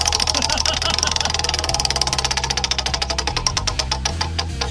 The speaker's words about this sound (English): You want me to spin it now? Yes. Okay. I'm going to spin it now. Spin the wheel!